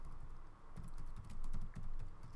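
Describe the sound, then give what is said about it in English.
Faint typing on a computer keyboard, a quick, irregular run of soft key clicks with a few brief pauses between them. “you type in Google Trends, click on this”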